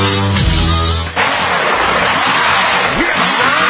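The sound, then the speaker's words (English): A tow truck, or wrecker, roars loudly, starting with a steady low droning hum that gives way to a harsh, continuous rumbling noise lasting to the end. “You hear that? That is the sound. No, that is the sound of the wrecker. That is the sound of the tow truck.”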